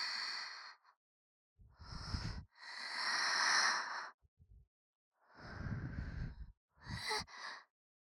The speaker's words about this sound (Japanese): 耳に息がかかって、くすぐったいの。